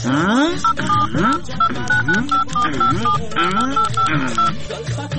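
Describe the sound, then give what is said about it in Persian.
A telephone number being dialed on a keypad, with many short, evenly spaced beeps at a few different pitches, heard over a busy background. “ای والا راست میگی، تو باش که برش یک زنگ بزنم.”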